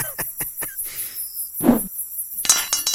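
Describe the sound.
A grappling hook is thrown up to an open window and catches on the first try: a few quick metallic ticks, a short rushing swish, then a sharp clattering clink, with no voices.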